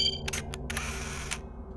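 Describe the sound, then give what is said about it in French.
Camera shutter clicks sound as two people take a selfie together, a quick cluster of sharp, crisp clicks followed by one more after a short pause, over a faint hum. “On prend un selfie à deux Avec plaisir.”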